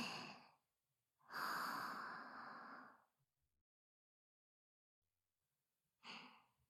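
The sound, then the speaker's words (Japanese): Soft, airy breaths come during a guided breathing exercise: three breaths in and out, with the middle one long and drawn out, separated by quiet pauses. “吸って吐いて、”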